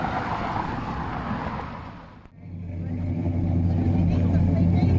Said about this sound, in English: That sound is a car that Chris's aunt and uncle own. It's an Oldsmobile.